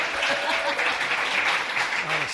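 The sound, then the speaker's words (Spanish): Applause fills a radio studio as guests and hosts give an ovation, with moderately quiet, steady clapping and a voice talking faintly underneath. “Sí, porque no ha habido ovación, ovación para todo el mundo.”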